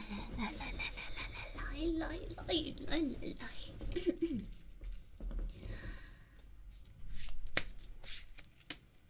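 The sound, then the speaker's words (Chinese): Playing cards being shuffled during a card game, with a quiet, repeated riffling and flicking of the deck over several seconds while people talk at the same time. “哎呀，其实就是打牌。”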